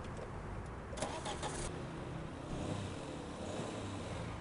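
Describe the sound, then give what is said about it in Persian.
Car engine starting and running, a steady, dense mechanical rumble with a fairly even loudness throughout and no voices over it. “استارت بزن.”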